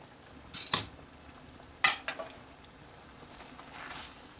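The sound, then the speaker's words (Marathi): Chicken stirred and cooking in a pan over a low-to-medium flame: a soft, steady sizzle with a few sharp utensil clanks against the pan, and no voices. “Total आपल्याला 35 मिनटं chicken शिजवायचं आहे. पस्तीस मिनटं झालेली आहेत.”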